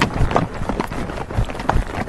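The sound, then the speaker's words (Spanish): A horse trots under a rider, its hoof beats falling in a quick, even rhythm over a wash of wind noise. “Resumo, las dos riendas con una mano, la otra nos agarra. Venga, pues salimos, trote.”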